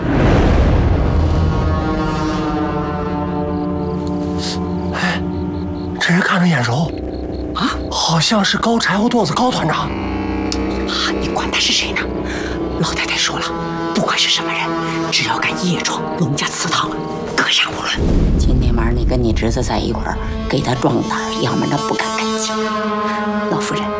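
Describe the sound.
Gunfire during a night ambush on intruders at a family ancestral hall, with sharp shots cracking out at irregular intervals, mixed with raised voices throughout.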